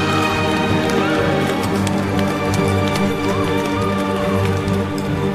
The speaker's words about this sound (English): In confusion, the citizens started running away.